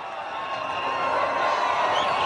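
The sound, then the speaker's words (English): Large, noisy crowds cheering at an election rally in Uganda: a dense wall of shouting and cheering voices, loud and sustained, swelling slightly toward the end. “That's the sound of election time in Uganda. Large, noisy crowds turning out to support their candidate.”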